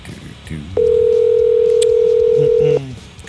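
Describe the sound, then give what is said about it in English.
A telephone call rings out with one loud, steady ringback tone lasting about two seconds. The tone sits over a low background of murmuring noise that continues before and after it. “All right, dude, it's ringing.”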